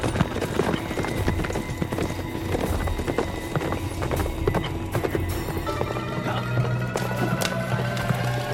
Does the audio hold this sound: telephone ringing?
no